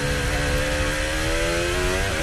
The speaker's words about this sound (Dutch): Wie rijden we? Een van de Cadillacs.